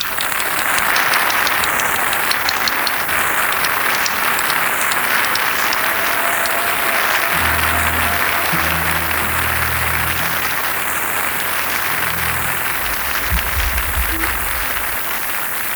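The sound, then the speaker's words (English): Sustained audience applause welcomes a singer onto the stage at the Regent's Park Open Air Theatre. The clapping is dense and steady at an even loudness throughout, with faint low tones underneath in the latter half. “would you please put your hands together and give a warm welcome to Miss Barbara Dixon.”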